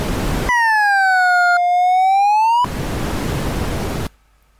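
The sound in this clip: An electronic audio-graph tone traces x squared on a calculator: a steady, harmonic-rich tone slowly dips in pitch and then climbs back up, with a short glitch midway, set between loud bursts of hiss-like noise.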